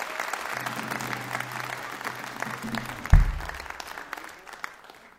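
Audience applause for a lyricist at a live show: steady clapping from a crowd builds to a sharp peak near the middle, then thins and fades toward the end.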